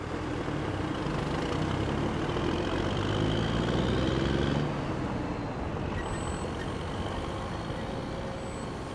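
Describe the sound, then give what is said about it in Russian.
A van driving through factory grounds and stopping: a steady, low engine rumble that eases and settles partway through, with a couple of faint high beeps toward the end. “Фургон едет по территории завода, останавливается.”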